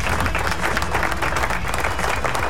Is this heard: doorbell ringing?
no

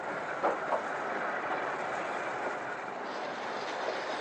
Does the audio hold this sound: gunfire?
no

